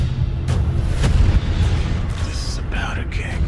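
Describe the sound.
Gunshots in a spy action movie trailer, a few sharp booming reports over a dense low rumble, with speech mixed in.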